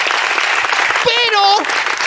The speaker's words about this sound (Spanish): Un aplauso para Eva Soriano, gracias, por favor.